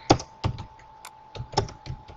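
Typing on a computer keyboard, many light clicking taps in uneven bursts, fairly faint, with a thin steady high tone running beneath them.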